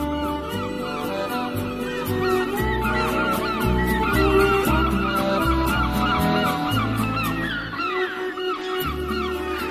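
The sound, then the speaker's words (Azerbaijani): Large flock of migrating geese honking: many overlapping honks and calls fill the whole stretch without a break, loud and dense throughout. “Bu dəstələr birləşib, böyük quş qatarına dönürdü.”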